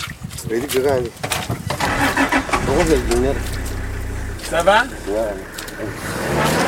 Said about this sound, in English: This is sound of getting stuck in the mud in Chad on the way to Gaga camp